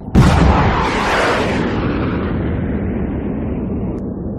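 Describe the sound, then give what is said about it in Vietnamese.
A bomb released from the right wing of a diving warplane explodes in one loud, sudden blast. A heavy, broad rumbling roar follows and slowly fades over several seconds. “cho nghiêng cánh, ấn nhẹ cần lái cho phi cơ chú xuống, rồi bấm nút thả một trái bom bên cánh phải.”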